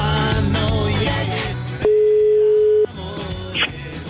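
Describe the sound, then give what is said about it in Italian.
A telephone ringing tone while a call is placed: a single steady, mid-pitched beep lasting about a second, sounding over background music. “Chiamano Fede, lui risponde così.”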